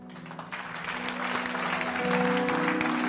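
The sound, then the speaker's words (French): A church audience gives an ovation to a departing pastor during a service, swelling steadily louder over a sustained low musical tone. “Alors qu'il sort ce matin, je veux une ovation pour lui.”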